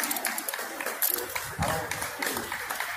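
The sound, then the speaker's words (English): Scattered hand clapping from a group of people rises and falls in uneven bursts, mixed with busy crowd noise and overlapping voices throughout. “And they're clapping.”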